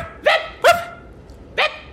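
A dog barks three times, short sharp yelps with an uneven gap between the second and third, loud and clear with no talking.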